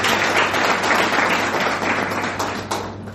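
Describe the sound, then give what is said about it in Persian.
An audience at a talk applauds itself with thick, continuous clapping, loud and even through most of the stretch before thinning slightly toward the end. “درخواست می‌کنم خودتون تشویق کنید”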